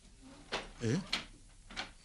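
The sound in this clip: Unlocked bedroom door being opened: a few short clicking, knocking sounds with a brief voiced murmur between them, at a moderate level.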